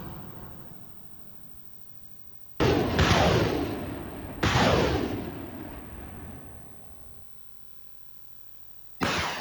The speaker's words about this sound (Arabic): المنطقة العسكرية الثالثة التابعة للجيش اليمني الموالي للمجلس الرئاسي صورا قالت إنها لقصف قواتها مواقع لجماعة الحوثيين جنوبي مأرب بالمدفعية الثقيلة وراجمات الصواريخ